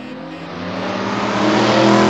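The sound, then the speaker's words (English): A car drives toward Hampstead Heath. A broad engine rumble and road roar with a faint tonal hum swell gradually louder over about two seconds, with no voices. “Yes, Bianca, Rice is driving. It's an experience.”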